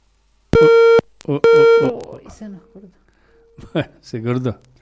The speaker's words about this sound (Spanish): Se cortó. Bueno, vamos a tratar de retomar la llamada.